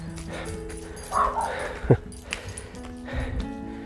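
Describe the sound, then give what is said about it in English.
A dog barks and whimpers, with a few short, sharp yaps that rise over a steady low background hum; one bark stands out loudest. No one speaks. “Oh, there's another dog barking at us.”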